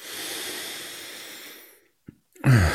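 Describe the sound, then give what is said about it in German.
A deep breath drawn in during a guided breathing meditation: a long, airy inhale of nearly two seconds that slowly tapers off, then a brief click and the start of another breathy sound. “einfach mal einen tiefen Atemzug nehmen. Bring Sauerstoff in deinen Körper, atme ein.”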